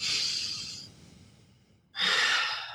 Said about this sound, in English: I like to start off with a big, deep breath. It helps to get you centered.